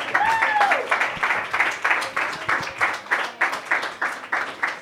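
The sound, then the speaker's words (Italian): Audience applause at a comedy night: dense clapping that thins into separate, rhythmic claps. A voice is heard briefly at the start. “un bel applauso”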